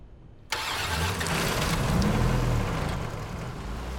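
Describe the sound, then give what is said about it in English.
An EMT's vehicle engine starts after brief quiet with a sudden burst, then settles into a loud, steady, low rumbling idle that continues to the end. “adjusts his side mirror and starts the vehicle.”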